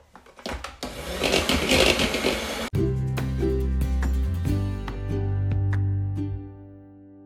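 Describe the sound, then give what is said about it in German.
Buttermilk waffle batter being stirred while flour is worked in: a loud whirring churn, first rough and noisy, then settling into a smoother, steady humming drone. “Und jetzt wird wieder gerührt. Und so lang macht ihr das, bis das Mehl dann aufgebraucht ist.”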